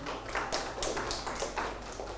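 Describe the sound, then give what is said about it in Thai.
Children clap for a classmate during a lesson, a dense, irregular burst of applause lasting about two seconds, with sharp overlapping slaps at fairly even loudness. “ถูกต้องปรบมือให้เพื่อน”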